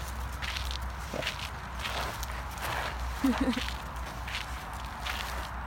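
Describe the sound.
Rustling and crunching of a dog rolling and wriggling in fresh snow outdoors, heard as a series of soft, uneven scuffing bursts with a slightly louder scrape near the middle.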